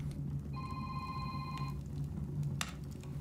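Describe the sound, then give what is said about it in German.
A telephone rings once as a faint electronic burst of about a second over a low, steady background hum. A sharp brief knock follows shortly after. “Und mein Telefon, entschuldige mal eben.”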